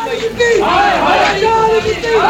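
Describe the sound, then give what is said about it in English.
Protesters chant slogans against the Chief Justice at the Supreme Court building, a loud, sustained mass of shouting voices with rising and falling chant lines. “They chanted slogans against the Chief Justice, calling him a bitch.”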